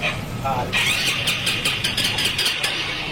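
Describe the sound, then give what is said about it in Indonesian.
A motorcycle engine that has suddenly died is cranked with its starter but fails to catch: a steady mid-pitched whine with a few uneven cranking pulses, heard under voices. “Mogok? Padahal perlu nyaman, tiba-tiba mati. Starter tak hidup.”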